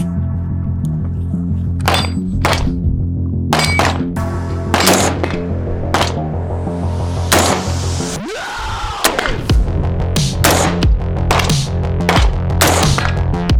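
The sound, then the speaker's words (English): Gunshots from a budget AR rifle with a 16-inch barrel, fired at targets from 100 to 200 yards: many sharp, loud cracks at irregular intervals over a steady background hum. “All right, boys and girls, we got the poverty tier AR here. We're gonna take a few shots here at 100, 150, maybe stretch her out to 200 a little bit.”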